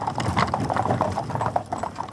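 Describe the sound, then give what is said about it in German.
Hooves clop steadily as a horse-drawn carriage rattles over rough ground. Many dense hoofbeats mix with a continuous clatter throughout. “Eine Kutsche rattert über Stock und Stein.”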